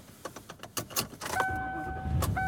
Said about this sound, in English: And I am driving home.